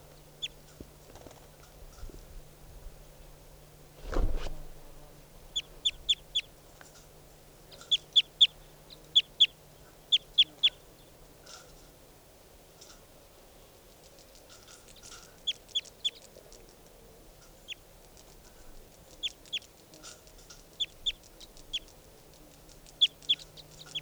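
Short, high bird chirps come in loose clusters across about 24 seconds, faint over a steady low hum, with one brief louder thump near the start.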